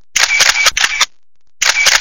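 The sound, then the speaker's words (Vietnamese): A camera shutter fires as a few photos are taken, heard as two loud stretches of rapid mechanical clicking separated by a short silence. “bấm máy chụp một vài bức ảnh từ phía sau lưng Trang Điệp, xem ảnh Trang trước. Đèn flash chớp sáng.”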